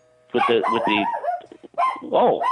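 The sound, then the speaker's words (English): A pet dog gives a few short barks and yips, with harmonic, whiny tones in two bursts separated by a brief pause, loud and close to the microphone. “There's our mascot. Yeah, right, exactly. That's the dog. That's my dog, Tita Green.”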